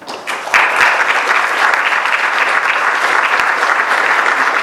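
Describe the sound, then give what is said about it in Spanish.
An audience at a consultative council meeting bursts into applause. The clapping swells quickly and then holds as a loud, dense, steady wash of many hands to the end. “Y quisiera pedir un aplauso particular”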